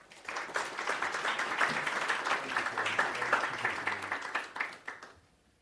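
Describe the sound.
Audience applause welcoming a speaker to the stage, a dense, steady patter of many hands clapping for about five seconds before tapering off quickly at the end.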